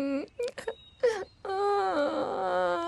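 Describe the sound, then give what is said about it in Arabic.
A wounded boy cries: short broken whimpers and sobs come first, then a long, wavering, high wail that carries on to the end, moderately loud, with no clear speech. “لماذا تبكي؟”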